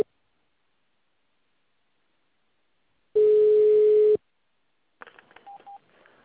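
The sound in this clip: A telephone tone plays while a call is being transferred: one steady, loud mid-pitched tone lasting about a second, then a short gap and fainter broken sound carrying a couple of brief higher beeps.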